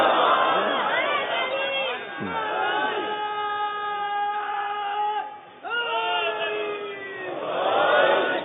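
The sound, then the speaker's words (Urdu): A large religious gathering chants the Nara-e-Haidri slogan. Many voices hold long, drawn-out tones that glide up and down in a few sustained swells. “نعرہ حیدری تعزیزان گرامی، میں کیونکہ مسلسل نعرہ سنتا رہتا ہوں”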